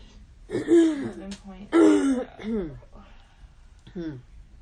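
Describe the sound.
A person clears their throat because of a tickle in it, making a few rough, voiced vocal bursts with falling pitch, separated by short pauses.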